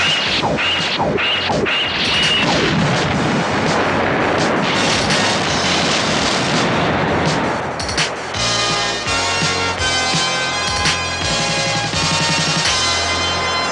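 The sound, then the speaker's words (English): Spaceship weapons fire amid explosions in a dense, loud, continuous barrage of blasts, crashes and whooshing bursts with no pause. “Enemy in range. Fire, Hercules!”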